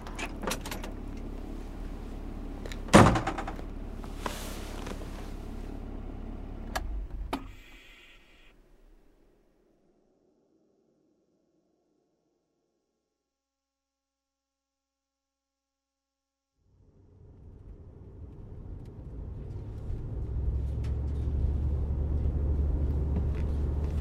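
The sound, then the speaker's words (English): A car drives up to a colony's gate, with a few brief clunks at first, then a pause of near silence before a low engine rumble swells and holds steady. “I'm driving up to the colony's gate right now.”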